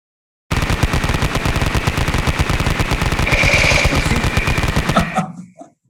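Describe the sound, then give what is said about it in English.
Rapid machine gun fire, a continuous loud stream of sharp, evenly spaced shots that runs for about five seconds without pause before stopping abruptly. “So much, why are you shooting me? This is rapid fire, literal.”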